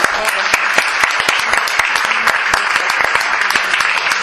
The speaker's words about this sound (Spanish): En la memoria de aquella criatura sabia, un aplauso.